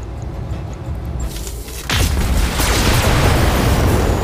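Battle mechs fire heavy weapons in a video game: a low, steady stretch breaks into a loud boom that swells into a dense, sustained roaring blast.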